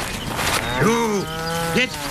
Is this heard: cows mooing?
yes